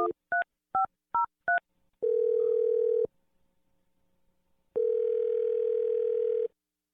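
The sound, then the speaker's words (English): Touch-tone telephone dialing a number: five quick keypad beeps in a row, then two long, steady ringing tones separated by a pause, with no voices. “All right. I'm going to dial the number. Here we go.”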